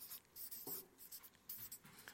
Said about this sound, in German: Ich weiß, ihr könnt es eh nicht lesen, was ich hier vorne schreibe, aber es ist trotzdem cool, oder?